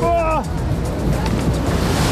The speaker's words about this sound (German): Wir sind jetzt gerade auf einer Wasserbahn.